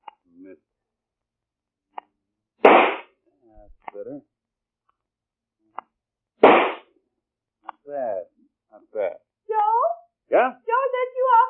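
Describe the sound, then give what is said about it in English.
Two rifle shots ring out as sharp, loud cracks a few seconds apart, followed by people talking. “Why are you shooting that rifle? What are you shooting at?”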